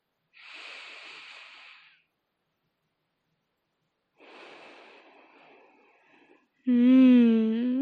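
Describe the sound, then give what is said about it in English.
Deep sniffing from a dog: two long, breathy inhalations of about two seconds each, separated by a pause, followed by a person speaking. “A nice, deep sniff. There you go. And again.”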